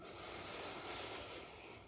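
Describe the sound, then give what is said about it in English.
A long, deep inhale through the nose during a guided breathing exercise makes a steady, airy hiss that lasts for about two seconds and fades slightly at the end. “And now taking a deep breath in through the nose and sighing out.”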